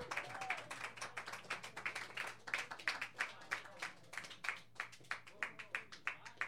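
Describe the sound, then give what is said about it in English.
Audience clapping for the next performer at an evening open-mic show, settling into a steady rhythmic beat of crisp claps repeated many times at an even tempo, fairly faint. “I think it's time to give some thunderous applause to our next performer”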